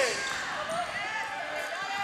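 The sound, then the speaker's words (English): A hard volleyball spike smacking the court for a kill during a volleyball match: one sharp ball impact amid voices and steady background noise. “Quick set by Rivers. And another kill for Schultz. Schultz picking up kill number 7.”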